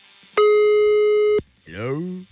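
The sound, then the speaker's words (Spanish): A telephone busy signal after dialing a number: one steady, bright electronic tone lasting about a second, then a voice speaking. “No me contesta Laura Elena. Qué mala onda. Una vez más la voy a marcar.”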